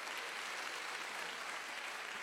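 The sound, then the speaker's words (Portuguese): Applause from a church audience during a sermon: a faint, steady wash of many hands clapping that holds evenly throughout, with no voices standing out. “É bom, o aplauso é bom, é bom, é bom”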